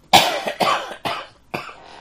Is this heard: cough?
yes